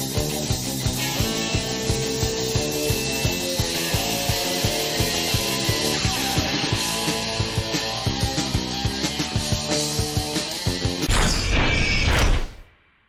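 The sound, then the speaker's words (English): Intro music from the video game Skate: a dense track with a steady, driving beat and layered harmonic parts. It plays loudly throughout, then ends in a brief noisy burst before cutting off. “That is our intro music for the week. Sean, do you know what game that's from? Is it the original Skate? Holy crap! Skate.”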